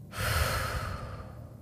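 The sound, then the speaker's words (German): A single long, deep breath taken during a guided gratitude breathing exercise: a steady, airy rush of moderate loudness that starts abruptly and eases slightly toward the end, with no talk. “Atme einmal tief ein. Denke an etwas, für das oder den du dankbar bist und atme wieder aus.”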